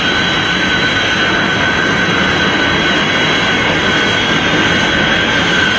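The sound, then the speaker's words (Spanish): A Comet 3 jet airliner roars in flight, a loud, steady, unbroken rush of engine noise with a sustained high whine running through it and no distinct boom. “Allá va, atravesando la barrera del sonido.”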